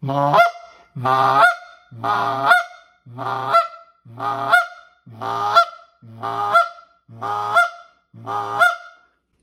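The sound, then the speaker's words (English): A goose call clucks in imitation of a goose on the water: nine evenly spaced nasal honks, each ending in a sharp break, loud and alone. “great little cluck to give on the water or in the field”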